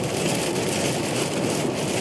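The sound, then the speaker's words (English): Heavy rain pelting a car windshield while driving through a rainstorm, a dense, unbroken hiss and patter with a low rumble underneath and no voices. “even as I'm driving through this rainstorm, that there has been times where the visibility has gotten so bad that, and the rain collecting on the windshield”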